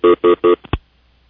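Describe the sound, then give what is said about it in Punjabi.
Telephone keypad tones sound on a radio phone-in line: three identical beeps in an even rhythm, then two short clicks, followed by near silence. “ਤੁਹਾਡੀ ਕਾਲ ਆ ਰਹੀ ਹੈ, ਤੁਹਾਡੇ ਵਿਚਾਰ ਵੀ ਲੈਂਦੇ ਹਾਂ ਬਾਕੀ ਦੇ ਵਿਚਾਰ”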